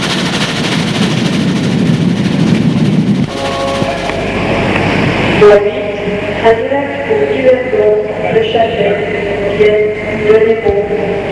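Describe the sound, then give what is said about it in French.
Train arriving in Paris: a loud, rumbling clatter of rolling rail cars. About halfway through, sustained tonal horn-like notes sound over the continuing rail noise. “et le train arrive à Paris.”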